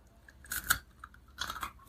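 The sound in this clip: Crunchy, warm onion bread being chewed, with two loud bursts of crisp, crackling crunches separated by a quieter pause and faint smaller bites between them.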